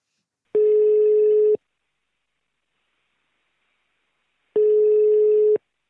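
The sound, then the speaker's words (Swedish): An outgoing phone call rings out with a ringback tone: two steady, mid-pitched tones, each about a second long, separated by roughly three seconds of silence, with no talking. “Och då passar vi på att slå en signal till Kevin Haglund”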